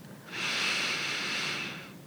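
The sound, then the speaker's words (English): A deep breath drawn in during a guided relaxation exercise with eyes closed: one long, steady, airy inhalation of about a second and a half, smooth and even, with no talking. “Take the second deep breath in.”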